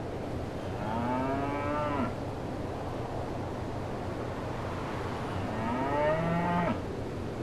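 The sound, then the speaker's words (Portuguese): Cattle of the god Helios on his island give two long, low moos, several seconds apart, over a steady rushing background. “E lá estava o gado que Tirésios, lá no reino dos mortos, alertou para não ser devorado.”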